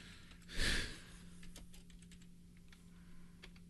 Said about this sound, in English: And we can hear how slow I type.